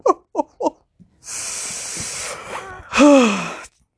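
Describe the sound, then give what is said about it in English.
Wheezing breath from someone with asthma whose inhaler is not helping: three short, sharp breaths, then a long hissing breath and a louder, strained whistling wheeze that falls in pitch. “Do you hear my wheeze? Oh, boy. I puffed my inhaler and it just doesn't help.”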